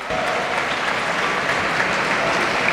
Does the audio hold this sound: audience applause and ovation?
yes

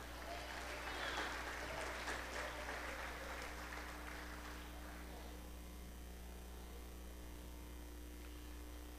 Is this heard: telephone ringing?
no

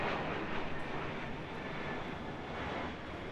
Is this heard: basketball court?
no

